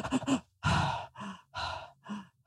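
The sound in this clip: A voice imitates a baby's irregular breathing: uneven breathy bursts, some quick and clipped, others longer and drawn out, alternating in an unsteady rhythm with short pauses between.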